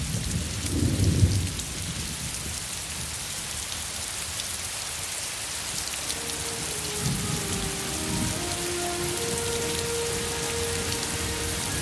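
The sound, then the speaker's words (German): Gentle rain falls steadily as a continuous soft hiss, with a low rumble near the start and another midway; faint sustained tones enter during the second half. “Regen fällt. Sanft.”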